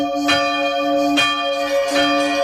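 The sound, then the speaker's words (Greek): Church bells ring out in three clear strikes about a second apart. Each strike leaves a long, humming resonance that carries through to the next, with no voices. “Που χτυπάνε οι καμπάνες τώρα.”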